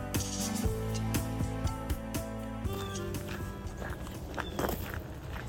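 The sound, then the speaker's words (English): Footsteps of someone out walking in Harrisburg, Pennsylvania, a steady, regular run of steps that continues through the whole stretch. “If my sound sounds a little funky, it's because I'm out on a walk. And I'm out on a walk because I am in Harrisburg, Pennsylvania”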